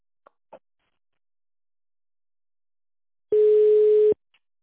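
A telephone ringback tone while a call is transferred: two faint clicks, then a single steady mid-pitched beep lasting under a second, followed by silence.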